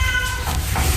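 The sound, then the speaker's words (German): A black one-year-old tomcat meows in a shelter's cat house, giving a short, bright cry that fades into a steady background hiss. “Das hier, was ihr gerade gehört habt, ist Lucifer. Lucifer ist ein schwarzer, einjähriger Kater, ein richtig schicker Bursche.”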